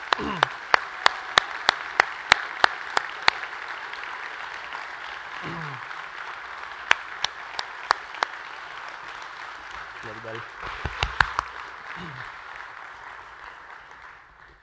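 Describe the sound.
An audience applauds to welcome a pastor at a church commissioning service. Scattered, uneven claps rise in bursts over a steady crowd murmur, with a few voices calling out now and then.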